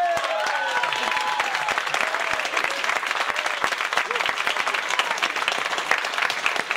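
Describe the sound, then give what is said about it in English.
Applause and cheering from a live comedy club audience at the Comedy Cellar: a few whoops at the start, then dense, steady clapping that holds throughout. “Ladies and gentlemen, please put your hands together and make some noise for Professor Glenn Loury.”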